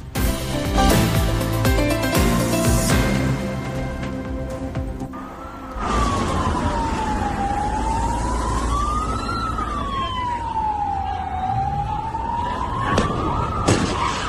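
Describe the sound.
A police car siren wails during a police chase in Benidorm, its pitch slowly rising and falling over a steady traffic rumble. Music plays before the siren comes in.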